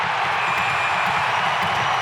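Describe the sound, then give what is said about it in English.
A hockey crowd roars to its feet at the Vegas Knights' arena, the Fortress, during a Stars power-play scramble, a loud, sustained, even wash of cheering with no breaks. “Crowd to its feet at the Fortress.”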